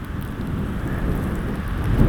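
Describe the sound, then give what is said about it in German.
A headwind gusting through a mix of hail, rain and snow during a ride on pedals: a dense, low, rumbling roar that stays loud and steady throughout, swelling slightly near the end. “Wind ist weiter. Extrem unangenehm. Ich habe das Gefühl, er kommt immer von vorne.”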